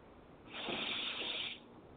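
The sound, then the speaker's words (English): A single deep breath drawn in, a soft breathy hiss that swells out of a quiet background, holds for about a second and then fades away, heard alone without any talking. “And deep breath in.”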